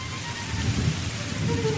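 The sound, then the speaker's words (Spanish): Summer thunderstorm with steady heavy rain hissing and pattering throughout, underlaid by a low rolling thunder rumble that swells briefly in the middle. “Pero atención, las tormentas veraniegas son muy traicioneras y cuando aparecen además nos lo revolucionan todo.”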